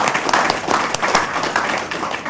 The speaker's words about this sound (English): Let's give them a round of applause for that amazing accomplishment.